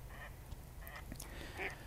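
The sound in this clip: Mallard duck quacking: a few short, nasal calls over a steady low rumble, with the clearest and loudest call near the end.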